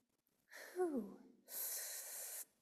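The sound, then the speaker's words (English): A person inhales deeply and faintly, alone. A short voiced gasp that falls in pitch is followed by a long, even, airy rush of breath. “Let's do something right now. Just inhale.”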